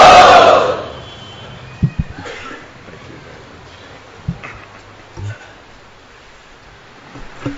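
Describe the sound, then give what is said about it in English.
A crowd at a religious gathering loudly shouts Hari Bol in welcome, a brief, forceful burst that quickly dies away into quiet broken by a few coughs. “So, again, let us welcome Dhanurdhar Maharaj with loud Hari Bol.”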